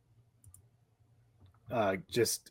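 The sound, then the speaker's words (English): Faint, sparse computer clicks sound while someone logs in on a computer, a few light taps over a low hum, followed by a person talking. “I'm going to actually just log in real quick. So if you hear some clicking, that's just me.”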